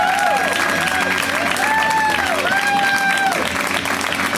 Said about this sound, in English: Give it up for Baron.